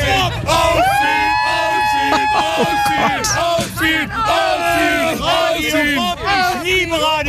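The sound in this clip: Festival-goers waiting in the infield for the opening cheer, whoop and yell together, a loud, continuous mass of overlapping shouting voices with brief dips.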